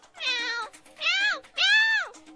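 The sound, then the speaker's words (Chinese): A person imitates a cat with three drawn-out, whiny meows. Each rises and then falls in pitch, and the voice is clear and fairly loud with short gaps between the calls. “点解你会喵喵叫嘅？”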